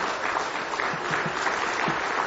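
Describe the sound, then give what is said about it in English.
Hand clapping fills a church in steady, dense applause that holds at an even level for the whole stretch, with no voices rising above it. “Let's stand to our feet, give Him one more hand clap of praise tonight.”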